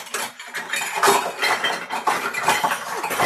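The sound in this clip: Metal cutlery clinks and rattles as someone rummages through it looking for a teaspoon, with many rapid jangling clinks running continuously and no talk.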